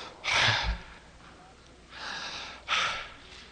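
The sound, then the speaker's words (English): A person imitates breathing with three loud, airy breaths: a strong gasp-like first breath, then a softer, longer one and a sharp closing one, with no words. “As I breathe, God breathes. He goes...”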